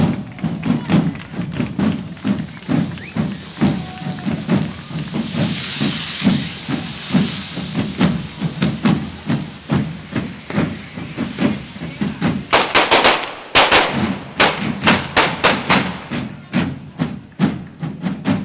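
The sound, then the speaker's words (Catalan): Fireworks and firecrackers hiss and thump in a steady pulsing rhythm at the finale of a devils' fire-run in Sitges, followed by a dense burst of sharp bangs near the end. “L'encesa final, amb abraçades incloses entre els membres de la colla, acaba l'actuació de la colla jove de Diables de Sitges.”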